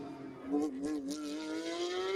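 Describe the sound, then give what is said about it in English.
A racing car engine on a race circuit, its buzzing, harmonic-rich note climbing steadily in pitch as it accelerates, fairly faint and continuous throughout. “that BD racing car with the pink on the sills and the mirrors just holding on to it at the moment.”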